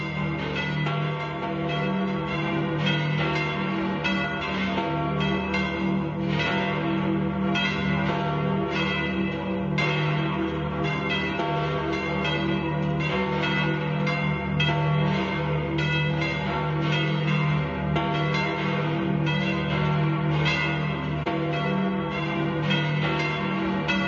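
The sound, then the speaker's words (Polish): Vatican church bells peal at St Peter's Square before the Angelus prayer. Loud, overlapping strikes ring continuously and evenly throughout, with no voices. “To już dzwony watykańskie.”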